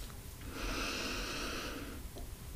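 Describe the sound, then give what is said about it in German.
A single long, deep breath drawn in steadily, a soft airy rush lasting about a second and a half with no talk over it. “Dann nimm mal einen tiefen Atemzug”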